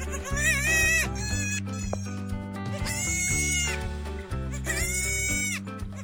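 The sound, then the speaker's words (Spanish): A goat bleats three times, each call a loud, wavering, nasal cry of about a second, separated by short pauses. “¿Lo tienes? Se trata de una cabra.”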